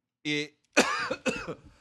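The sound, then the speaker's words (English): A person coughs twice in rough, breathy bursts close together. The coughs follow a short voiced throat sound that comes just before them. “there I am again, still coughing.”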